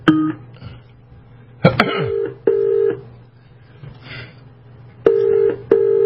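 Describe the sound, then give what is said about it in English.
Telephone ring tones on a Skype call line placed to a New Zealand phone number: several short, steady, buzzy tonal bursts separated by pauses, with a few soft clicks in between and no talking. “Believe it or not, that's the phone ringing here.”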